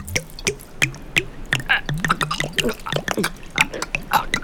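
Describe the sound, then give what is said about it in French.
Water is poured into a bird's beak in a series of irregular drips and splashy gulps, with throaty voiced sounds between them. “De l'eau ? Vous avez de l'eau ? Vous en voulez ? C'est pas de refus. J'ai le gosier tout sec. Vous pouvez pas m'en verser dans le bec ?”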